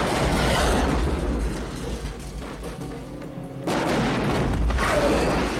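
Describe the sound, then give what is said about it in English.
A pylon in a video game explodes after being shot: loud, rumbling booms and dense crackling blasts that ease off partway through and then surge back to full strength. “He shoots a pylon. I think it blows up. Pylon explodes.”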